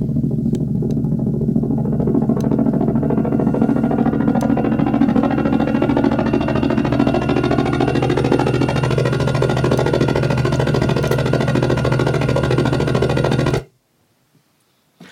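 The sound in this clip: A modelled vehicle engine from a video game audio engine drones in a steady, low rumble with clattering mechanical layers for about 13 seconds, then cuts off abruptly into silence.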